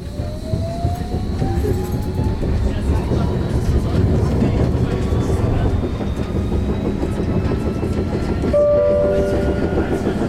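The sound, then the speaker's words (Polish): A tram running on rails gives a steady, dense rumble with a faint electric whine that slowly rises in pitch. Near the end a brief clear tone sounds over the running noise. “To są, zdaje się, różne typy tych tramwajów, więc te dźwięki też różnie brzmią”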